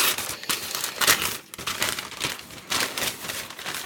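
Crinkling and tearing of plastic packaging as a packaged vinyl record is unwrapped. Continuous loud rustling is broken by several sharper crackling bursts, with no talk.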